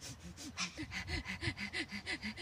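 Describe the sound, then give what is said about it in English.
Someone demonstrates shallow, fearful breathing: a rapid, even series of short, gasping breaths at a fairly quiet level, with no talk. “you realize that at that time you were breathing very shallow, like”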